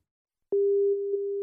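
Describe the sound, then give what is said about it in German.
A telephone ringing tone on an outgoing call: after half a second of silence, a single steady mid-pitched tone starts and holds unbroken to the end. “Anruf bei Jonathan Livni.”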